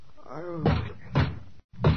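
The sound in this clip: Police pound on a house door: three heavy, dull thumps land in a steady, forceful rhythm, with a brief voice heard just before the first blow.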